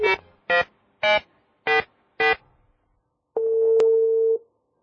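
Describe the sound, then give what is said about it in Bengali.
Telephone call connecting tones: five short, evenly spaced ringing beeps followed by one longer steady tone, with no talk. “এতক্ষণে ফোনটা connect করে ফেলেছে সুমন এবং মঞ্জু”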